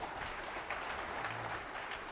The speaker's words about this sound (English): Real quick, audience, it's okay to applaud. Please do not cheer or scream or anything like that.